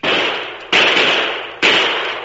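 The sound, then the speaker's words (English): Three gunshots ring out as sharp, loud bangs, each trailing off in a long noisy decay, spaced unevenly over about two seconds with no voices. “The shots!”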